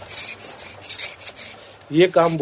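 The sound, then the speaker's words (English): A knife scrapes and shapes bamboo sticks for the frame of an Indian fighter kite, a dry rasping made of several uneven strokes that grow louder near the end. “He uses a knife to carefully shape these sticks.”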